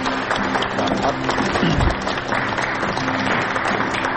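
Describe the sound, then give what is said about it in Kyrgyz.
Applause from a studio audience sending off a departing presenter: dense, steady clapping that stays loud and even throughout, with no voices standing out. “Буга чейин азаттыкты алып барып жүргөн биздин алып баруучубузду кол чаап узатсагандар.”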